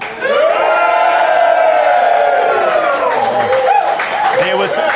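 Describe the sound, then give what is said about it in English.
Hundreds of people at Beer Deluxe in Federation Square cheer as loudly as they can. Their voices hold as a sustained, very loud roar with some clapping, then break into scattered whoops and shouts near the end. “We have hundreds and hundreds of people who are going to make the biggest noise that hundreds and hundreds of people can make.”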